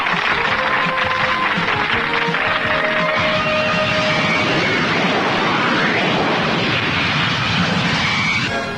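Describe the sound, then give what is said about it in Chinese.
Phantom fighter jets at an air show roar with a loud, sustained jet-engine noise, their pitch sweeping as they pass. “现在由全世纪最新型嘅幻影式战斗机表演”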